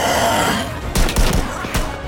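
A few sharp gunshots ring out as soldiers fire on attackers overrunning a base. The cracks are spaced irregularly over a dense, noisy background.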